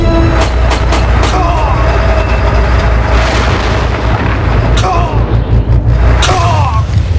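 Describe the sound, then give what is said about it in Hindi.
Tank cannons fire and shells explode in a dramatized tank battle at Chawinda. Loud, heavy booms recur many times over a constant rumbling din. “اب ہمیں بنا رکے ان دو ٹینکوں پر fire کرنا ہے go and send them to hell fire yes sir”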